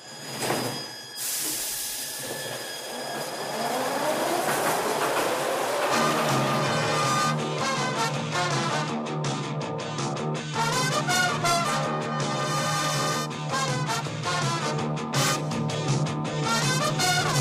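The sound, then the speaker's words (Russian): A metro train pulls out of a station after its doors close. A burst of hissing air comes first, then an electric motor whine climbs steadily in pitch as the train gathers speed. “Осторожно, двери закрываются. Следующая станция – парк имени отдыха.”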